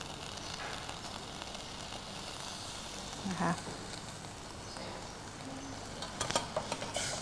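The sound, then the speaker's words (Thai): Steady sizzling hiss of thick coconut cream stir-fried in a pan until its oil separates red, with a few brief stirring clatters breaking through the continuous crackle. “เราจะผัดกับหัวกะทิเพื่อให้น้ำมันมันออกมาเป็นสีแดงๆหน่อยหนึ่งนะคะ”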